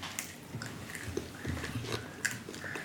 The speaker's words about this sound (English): I can see you munching on it.